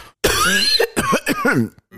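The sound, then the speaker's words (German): A man sick with the flu coughs: one long, harsh, rasping cough, then a few shorter, throaty coughs in quick succession, loud and alone. “Also ich werde keinen Huster oder irgendwas rausschneiden, einfach um ein bisschen Mitleid zu erregen.”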